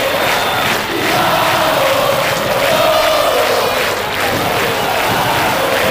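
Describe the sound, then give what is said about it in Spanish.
Gimnasia Jujuy football supporters chant and shout together in a stadium during a match against Estudiantes de Buenos Aires. A loud, sustained mass of voices with a rolling, sung melody carries on without a break. “como grita el público jujeño, alienta todo Gimnasia, escuchen.”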